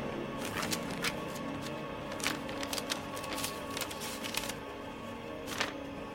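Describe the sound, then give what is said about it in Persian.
Paper rustling as a letter is opened: faint, crisp crackles and rustles at irregular intervals over a quiet background, with no voices. “نامدار با ناراحتی یه نامه رو میگیره طرف شیرزاد. شیرزاد نامه رو باز میکنه.”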